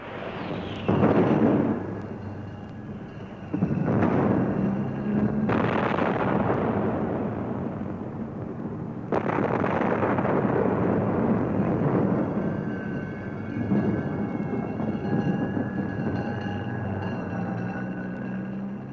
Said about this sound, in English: Sounds of news actuality, of the news as it happened, like that wartime raid on London, now became a regular part of radio news reporting.